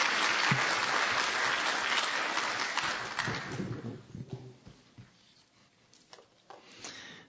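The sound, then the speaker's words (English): Applause from a church audience welcoming guest speakers: dense clapping fills the first few seconds, then thins and fades into scattered claps and quiet shuffling. “Our culture doesn't have a way to welcome people or thank them. But we'll just give them a hand. Is that okay? Thank you, guys.”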